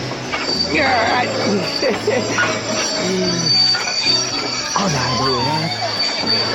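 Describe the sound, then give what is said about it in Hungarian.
A train brakes hard after the emergency brake is pulled, its wheels giving a thin, sustained high squeal on the rails beneath continuous overlapping talk from several people. “Szóval meghúzta a vészféket.”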